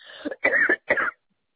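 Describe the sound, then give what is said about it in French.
Three short, rough coughs from a caller during a phone call, coming in close succession with brief gaps, the middle one longest, then silence. “excusez-moi, je tousse.”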